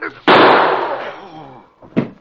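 Gunshot fired during a struggle over a gun: a sharp, loud bang that bursts out suddenly and then decays slowly over about a second.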